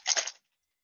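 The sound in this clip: Dice roll in a quick, faint clatter of a few tumbling clicks that lasts under half a second, then stops.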